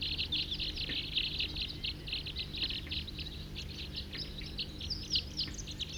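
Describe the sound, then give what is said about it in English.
A flock of about forty wild birds calls continuously, with many high, quick chirps overlapping throughout over a low background hum and no talk. “Wild birds, 40 calling there.”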